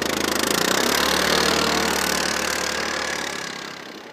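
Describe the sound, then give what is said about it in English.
A snow trail grooming machine's engine drones near a Nordic ski trail crossing. The steady, rough mechanical rumble swells slightly, then gradually eases and quiets toward the end. “when our trail crosses a Nordic ski trail, a grooming machine approaches. It slows, and the groomer gives us a piercing stare.”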